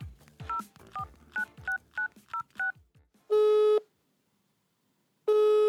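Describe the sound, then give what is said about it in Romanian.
A telephone number is dialed on a keypad: seven quick touch-tone beeps in an uneven rhythm, then two long, buzzing ringing tones with a pause between them. “hai că-l sun pe Dorin.”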